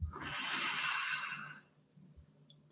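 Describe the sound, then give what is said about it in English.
A single deep inhale during a guided relaxation exercise, a soft airy rush lasting about a second and a half before fading into quiet. “And now take in a deep breath”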